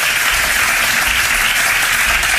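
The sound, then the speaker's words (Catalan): Sustained, loud applause from a party executive board giving a standing ovation to a regional president, a dense, even wash of clapping that continues without a break. “una ovación que ha durado bastantes minutos”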